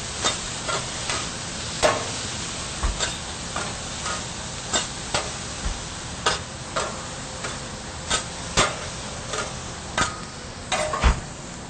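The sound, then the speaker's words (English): Tofu and vegetables stir-frying in a pan give a steady sizzle, broken by many sharp, evenly spaced clicks and scrapes of stirring throughout. “Flash fry the tofu for about 2 or 3 minutes. Stir up these veggies a little bit.”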